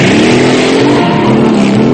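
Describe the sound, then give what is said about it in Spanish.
German military motorcycle revving on a country road in a World War II film scene, a loud, steady buzzing engine drone with layered harmonics at fairly even pitch for the full two seconds. “Por fin arranca y desaparece al final de una recta.”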